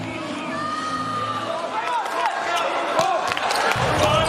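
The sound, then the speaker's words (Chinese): A volleyball is served and struck during a match, the US team serving. A few sharp slaps of the ball cut through steady crowd noise while a commentator talks over the action. “克里斯滕森的发球”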